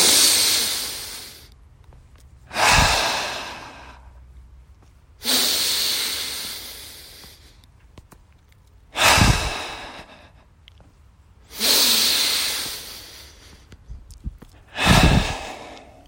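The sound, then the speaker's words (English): Three deep breaths taken slowly during a meditation, each a long, airy, hissing draw of air followed by a sighing release. The breaths repeat at an even, unhurried pace with quiet pauses between them and no talk. “And so let's start with three deep breaths. Let's set the mood right now. Let's do three deep breaths right now.”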